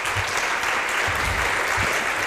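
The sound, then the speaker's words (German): Warm audience applause for a panelist at the end of a discussion session before the lunch break: thick, even clapping at a constant loud level with a few low thumps underneath. “Ganz herzlichen Dank dafür und bitte nochmal einen warmen Applaus von Annette Mühlberg.”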